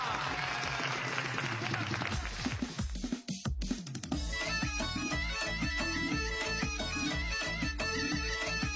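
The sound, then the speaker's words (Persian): Audience applause at a cheerful stage show, a dense, steady patter of many hands for about three seconds, then a brief dip before rhythmic, beat-driven music takes over. “بریم یه دست جونانه”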